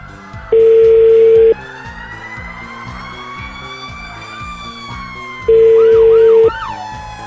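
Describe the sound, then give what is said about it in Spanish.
Telephone line tones sound while a number is dialled. Two loud, steady, one-second beeps at a single pitch come several seconds apart over continuous background music. “te estoy marcando el teléfono de Memo”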